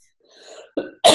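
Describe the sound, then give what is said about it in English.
Coughing from a person with a cold: two harsh, loud bursts in quick succession, the second longer and rougher, preceded by faint breathy throat sounds. “sorry, I'm coughing and sneezing today like crazy.”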